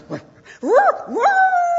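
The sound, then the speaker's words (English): A dog gives a loud, short yip and then a couple of rising, whining yelps that settle into a sustained high whine, heard alone. “He barked for help.”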